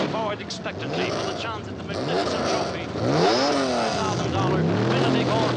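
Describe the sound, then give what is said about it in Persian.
Race car engines are revved as drivers tune them before a Tour de France motor race. Several engines roar together, their pitch repeatedly climbing and dropping in throaty bursts over a steady mechanical rumble. “تمام رانندگان در حال تنظیم موتورهای خود هستند.”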